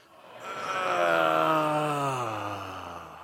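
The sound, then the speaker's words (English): An audience groans together on cue, one long collective groan that swells over the first second, holds, then slowly sinks in pitch as it fades. “One, and I want you to hear the sound of groaning. One, two, three.”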